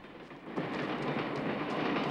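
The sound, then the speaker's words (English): A passing train rushes by as a steady, dense roar of rolling noise that holds loud and unbroken throughout, with a slight surge partway through. “as the train leaves them behind”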